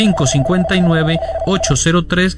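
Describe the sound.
An electronic telephone tone signals an incoming call: a steady single-pitched tone holds for about a second and a half under a talking voice, then stops while the voice continues.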